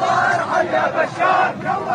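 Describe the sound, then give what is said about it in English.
A crowd of hundreds of demonstrators chants in unison in Sweida's main square, the massed voices rising and falling in loud, rhythmic swells that fill the whole clip. “a crowd of hundreds of demonstrators chanted in unison in Sweida's main square”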